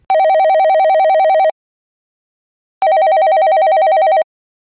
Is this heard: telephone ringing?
yes